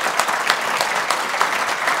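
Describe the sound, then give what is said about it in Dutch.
A full hall audience at a live literary talk show applauds a guest evening with dense, steady clapping that holds an even loudness throughout, with no voices standing out. “Ik wil graag vragen een groot applaus voor mijn gast hier vanavond, Renate Dorrestein.”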